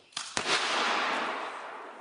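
Cannon firing a blank shot for show: a short snap and a sharp blast, then a broad rushing roar that slowly fades over about two seconds, heard alone and fairly faint.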